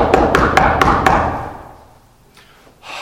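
Knocking as on a door: five quick, sharp raps in an even rhythm, then the sound fades to near silence before a couple of soft noises near the end.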